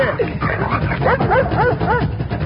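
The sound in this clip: A dog gives a rapid series of high, yelping barks and whiny yips. The calls bend up and down in pitch over a low, steady rumble.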